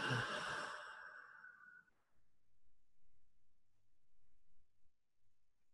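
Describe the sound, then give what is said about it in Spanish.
A single slow, deep breath during a guided breathing exercise, a soft breathy exhale lasting about two seconds, then near silence. “tres respiraciones lentas y profundas. Inhalando por la nariz, exhalando por la boca.”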